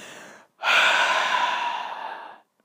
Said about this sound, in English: taking a deep breath